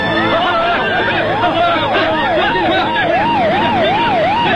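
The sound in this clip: Police car sirens wail in a fast, regular up-and-down cycle, loud and continuous, with several vehicles sounding together.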